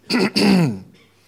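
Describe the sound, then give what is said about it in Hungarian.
A big cough rasps out in an apartment, loud and voiced. Two harsh bursts come in quick succession, close to throat clearing, and the second is longer and trails off into quiet. “jó nagyot köhögtem a lakásba.”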